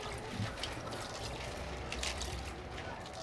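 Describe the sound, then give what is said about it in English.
Faint, steady splashing and trickling of water as coffee beans are washed before being roasted over a charcoal-heated pan, a soft continuous wash of liquid noise throughout. “why don't we find out what the roasting process is like at Ozone Ethio? First, wash the bean.”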